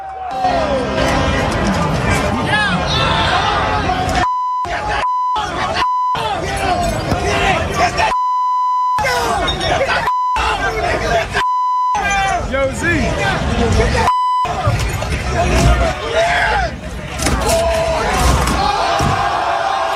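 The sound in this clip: A rioting crowd fills New York City streets after a championship win, with dense shouting and yelling voices, thuds and scattered noise throughout, broken up by several bleep tones.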